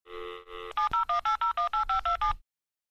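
A phone number is dialed on a telephone keypad: a steady tone, then a quick, evenly spaced run of about a dozen short beeps at changing pitches, followed by silence.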